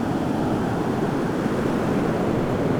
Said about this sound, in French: C'est ici, face à cette masse d'eau titanesque,